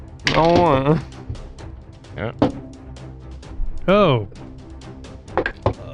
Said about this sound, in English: Hey, but before we discover those things, there's something we should do first. Roll for initiative.